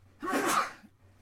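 A single sneeze, fairly quiet, bursts out alone in a short, sharp breathy rush, with near silence before and after.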